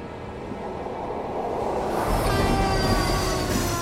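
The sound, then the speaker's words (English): A passing train rumbles steadily, a broad low roar that swells louder midway through, with faint high squealing tones above it and no talk. “A train passes.”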